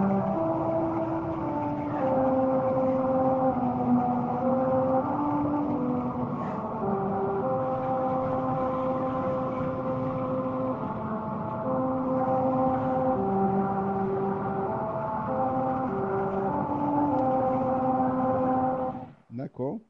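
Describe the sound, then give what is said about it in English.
A car travels at 45 mph over musical rumble strips on Route 66 in New Mexico. The tires hum a buzzing melody of America the Beautiful in steady, shifting notes for about nineteen seconds before it cuts off abruptly. “So the rumble strips will play a rendition of America the Beautiful. And I have a sample. And here's what it sounds like if you're traveling on the stretch of road on Route 66 in New Mexico at 45 miles an hour.”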